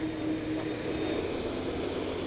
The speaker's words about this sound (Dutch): Hij is nu aan het oplijnen met de baan. Hij gaat nu in een zuidelijke richting starten.